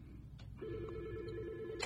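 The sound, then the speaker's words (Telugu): A telephone rings with an incoming call: one sustained, buzzy electronic ring tone lasting a little over a second. It is faint and heard alone, with no talk over it. “మాకు call వస్తుందండి.”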